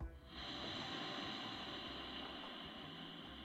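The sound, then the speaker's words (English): A cooling breath is drawn in slowly through the tongue, giving a faint, steady, airy hiss that runs unbroken for several seconds, alone with no voices. “let that hot air come through the tongue and produce coolness. Okay, let's do this again. Inhale.”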